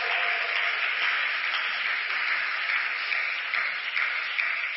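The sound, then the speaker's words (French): Applause from a church audience during an Easter service: dense, steady clapping that holds at an even level for the whole stretch, with no talking over it. “Est-ce qu'on peut acclamer pour la Pâque? Est-ce qu'on peut acclamer pour la Pâque?”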